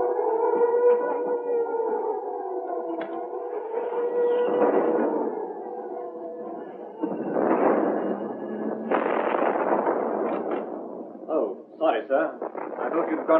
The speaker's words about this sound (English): An air raid warning, and I'm afraid our headquarters are in what we call Bomb Alley, so you must go to the shelter.